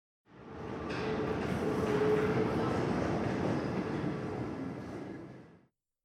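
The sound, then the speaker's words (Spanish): A tram pulls into Lycée International de Colomiers station with a steady rolling rumble of wheels on rail that swells in, holds for several seconds, then fades out. “Estación, Lycée International de Colomiers. Estación, Liceo Internacional de Colomiers.”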